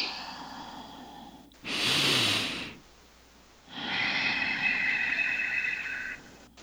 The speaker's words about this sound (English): really slow down that exhale through the nose. Make your exhale twice as long as your inhale.